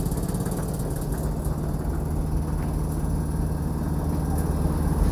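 An LG air conditioner fan running at its highest speed makes a loud, even whirring rush with a low steady hum underneath, unchanging throughout.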